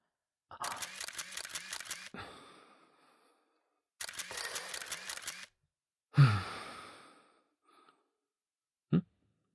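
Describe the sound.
Camera shutters fire as a couple pose side by side for photos: two rapid bursts of many crisp clicks, each lasting over a second, then a breathy sound and a final lone click with quiet gaps between.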